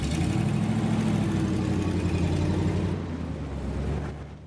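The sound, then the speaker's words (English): A truck drives away with a steady, low engine rumble. The sound holds constant, then weakens over the last seconds. “Philo and Clyde drive away.”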